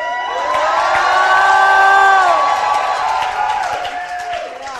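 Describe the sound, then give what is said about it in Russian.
Audience shouting and cheering, a sustained wash of crowd voices topped by a prominent drawn-out whooping shout, swelling over two seconds and then slowly fading. “Shout. Кричи.”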